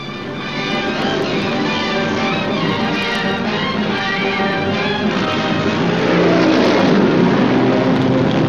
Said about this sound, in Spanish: Y de pronto llegué a donde alquilaban alfombras mágicas con motor fuera de borda.